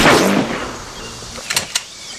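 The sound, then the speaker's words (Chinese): A single gunshot during rifle firing practice: one loud, sharp crack at the very start whose tail fades over about a second, followed by three faint small clicks. “谁开枪的？”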